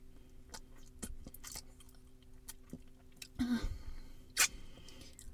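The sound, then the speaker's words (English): Wet licking and smacking of a palm smeared with a sticky mess: soft, moist clicks and squishes, fairly faint, with a louder wet slurp near the end. “Smearing my palm through this mess so I can lick it up.”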